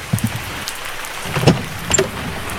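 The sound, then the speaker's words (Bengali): Heavy rain falls around a stalled car, a steady hiss broken by a few louder thuds and splashes. “বৃষ্টি মাথায় করেই গাড়ি থেকে নামলো রাহুল”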